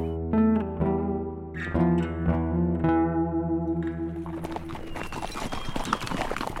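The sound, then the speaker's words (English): Horses' hooves clip-clop steadily as a group of riders travels along, rhythmic hoof knocks over a sustained tonal background that grows busier toward the end. “Sally and Lucy were riding in the middle, while three of their captors were riding in front and three were riding behind.”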